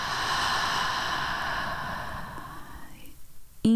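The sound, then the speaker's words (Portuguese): A slow, deep exhale through the throat during a guided breathing exercise: a long, breathy rush of air that holds steady for about three seconds, then thins and fades, ending in a sharp click. “Ó, eu vou te mostrar, vamos junto. Você pode imaginar e você pode acompanhar. Expira.”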